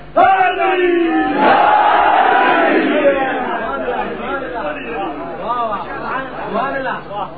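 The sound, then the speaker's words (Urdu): A crowd at a political speech in Pakistan shouts a religious slogan in unison. A loud, sustained roar of many voices fills the first three seconds, then breaks into scattered shouts and chatter. “بابا نے بلند نعرہ کروا دوستو.”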